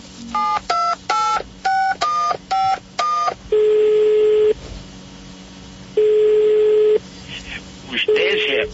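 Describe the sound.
Touch-tone dialing for a phone call placed to the presidential palace: a quick run of short electronic beeps in varying pitches, then two long, steady ringing tones on the line, with more line sounds at the end.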